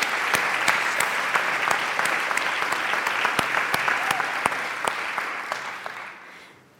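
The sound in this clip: Warm applause from a large audience of women at a church gathering welcoming a guest, many crisp hand claps in a dense, even stream that fades away at the end.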